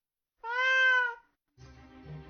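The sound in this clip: A cat gives a single clear, drawn-out meow with a steady, slightly arching tone, heard alone.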